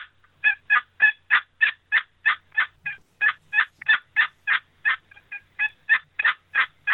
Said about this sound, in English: You take that same call, slow it down, and or make it into real turkey rhythm.